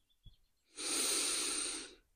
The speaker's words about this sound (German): möchte ich dich einladen, ein paar ganz tiefe Atemzüge zu nehmen.